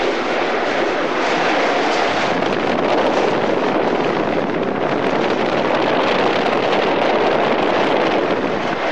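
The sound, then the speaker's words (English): A train runs at about 30 mph through a narrow mile-and-a-quarter mainline tunnel near Hampstead Heath, giving a steady, loud, unbroken roar with a rushing, wind-like hiss and no talk. “I'm just recording the noise as we run through the tunnel. We're doing about 30 miles an hour.”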